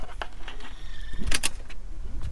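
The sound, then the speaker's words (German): A door being pulled open at a district government building, heard as a few clicks and metallic rattles with one sharper rattling burst in the middle, over a low steady background hum. “Einmal an der Tür bitte ziehen.”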